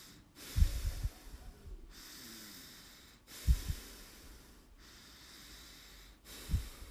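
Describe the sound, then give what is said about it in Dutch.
Slow breathing in and out through the nose: several drawn-out airy breaths with a few louder snort-like bursts at the start of some breaths, alone, with no talk. “adem enkel in via de neus en uitademen via de neus.”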